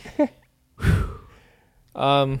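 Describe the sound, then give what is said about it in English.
Heavy breathing of a person worn out from standing up: a loud, breathy exhale fades away slowly, then a voiced, sigh-like breath follows after a short pause. “Whoa, I'm starting to breathe heavily. Standing up is, like, tiring.”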